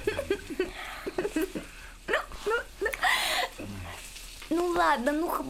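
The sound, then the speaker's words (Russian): Food frying in a pan at home makes a soft, steady sizzle beneath people talking. “жарит что-то на сковороде”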